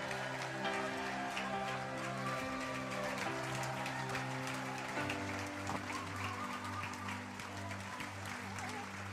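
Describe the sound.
Big round of applause from an audience welcoming a guest speaker, continuous dense clapping layered over sustained keyboard chords that change partway through.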